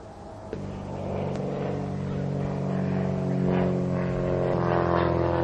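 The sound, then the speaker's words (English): An airplane drones overhead, a steady engine hum with a propeller-like harmonic tone that slowly grows louder over the whole stretch. “What the hell is that? That's a plane.”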